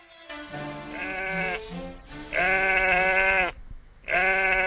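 Sheep bleating in a 1962 Egyptian radio comedy about a sheep bought for Eid: a few long, wavering, nasal bleats, loud and clear with nothing else around them.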